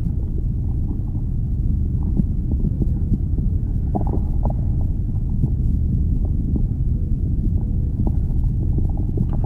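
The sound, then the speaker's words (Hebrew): Stomach rumbling, a continuous low, muffled churning rumble that stays steady throughout, with a few faint gurgles rising briefly above it. “ממש, תראו איזה מעניין זה. הצלילים של הקיבה שלנו.”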